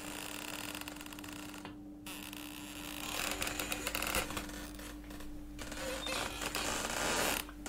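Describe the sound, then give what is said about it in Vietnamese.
An unlatched wooden door creaks as it is pushed open, a faint, long, grating creak over a steady low hum. “Thầy khẽ đưa tay đẩy nhẹ vào cánh cửa gỗ, bên trong không chốt, một tiếng kêu ken két vang lên, buốt cả tai.”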